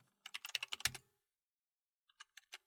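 Typing a message on a computer keyboard: a quick, even run of faint keystrokes, then a pause and a few scattered taps.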